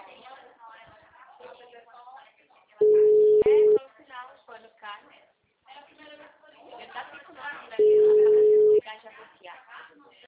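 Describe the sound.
Ringback tone of an outgoing telephone call, heard as two steady, mid-pitched beeps of about a second each, spaced several seconds apart. A person talks over and between them throughout.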